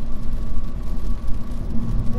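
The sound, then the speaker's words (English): Inside a moving car, a low engine and road rumble pulses unevenly, with a faint steady hum above it and no clear words. “You're recording in the car, all this sound.”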